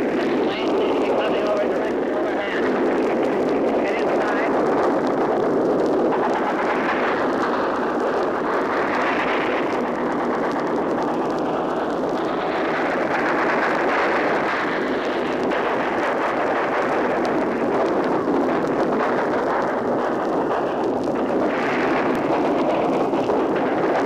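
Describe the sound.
Heavy anti-aircraft gunfire near the French coast forms a dense, continuous rumbling roar with a constant engine-like drone beneath it, while a man's voice speaks over the din.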